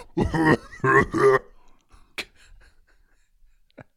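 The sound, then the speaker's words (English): A person choking on a throat full of swallowed BBs gives three strained, voiced gagging coughs in quick succession, followed by a few faint clicks and near silence. “He's choking. Look at that giant lump in his throat. There's like 20 BBs in that thing.”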